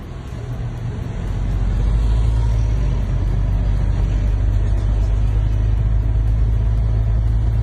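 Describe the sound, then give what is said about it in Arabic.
A long queue of cars waits for fuel in Mashrou Dummar, Damascus. Their idling engines and traffic form a steady, low, continuous rumble with no clear breaks. “مقطع قصير التقط في مشروع دمر بدمشق، أظهر طابورا طويلا لرتل من السيارات التي ينتظر سائقوها دورهم للحصول على المحروقات”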